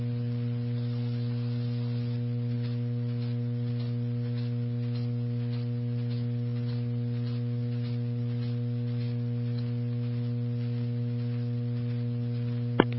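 A keyed radio transmitter carrier on an airline's aviation radio channel: a steady low electrical hum with faint regular ticking runs unbroken throughout, ending in one sharp click.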